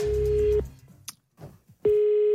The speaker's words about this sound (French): Alors moi, je propose qu'on l'appelle.